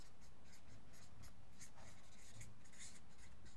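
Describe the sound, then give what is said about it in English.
Handwriting during a church talk on Bible verses: faint, scratchy pen strokes on paper in short bursts, with small squeaks and brief pauses between words, and no voices. “I'm not really expecting you to read my writing, it's just makes me feel good that I've written something.”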